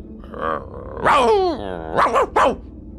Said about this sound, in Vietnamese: Nó sủa lên vài tiếng dữ dội